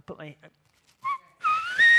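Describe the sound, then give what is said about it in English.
A man's clear, bright whistling follows a few brief voice-like sounds. A short whistled note is followed after a pause by a longer, louder note whose pitch rises near the end. “they didn't know that I could whistle like that, so I could do it with literally anything”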